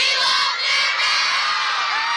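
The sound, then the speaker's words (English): Excited crowd cheering and shouting hours before the stars arrive, a dense, continuous wash of high whoops and yells that stays loud throughout. “This is just the hype and commotion of me being in the crowd. And this is how many hours before the stars arrive? This is around 6 o'clock. So everyone's getting kind of excited.”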